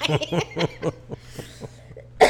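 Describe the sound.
A woman coughs in a run of harsh, repeated bursts, some voiced and throaty, with a louder, noisy burst at the end.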